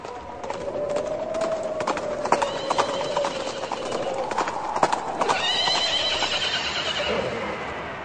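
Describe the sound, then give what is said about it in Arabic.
Two horses approach with hooves clip-clopping in a steady run of clops, and a horse's whinny rises above the hoofbeats. “يابا في اتنين على خيول جايين علينا.”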